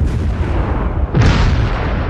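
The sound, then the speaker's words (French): A large explosion demolishing several buildings: a low, steady rumble breaks into a sudden loud blast midway, and a heavy, dense roar sustains after it. “Il vient d'y avoir une grosse explosion qui a démoli plusieurs bâtiments.”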